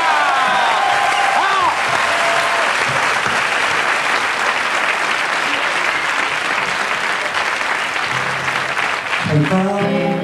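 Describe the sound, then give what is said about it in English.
Audience applause for a band, a loud, dense, steady wash of clapping that lasts throughout, with brief tonal sounds near the start and the end. “On peut les applaudir.”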